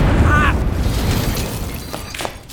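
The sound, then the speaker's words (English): A flashbang grenade goes off in an audio drama as a loud, broad blast, followed by a dense rumbling roar that slowly fades over a couple of seconds. “Flashbang!”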